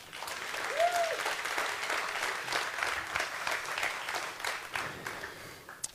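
Audience applause welcoming three guests at a school morning gathering: steady, dense clapping from a crowd, with a short rising-and-falling whoop near the start.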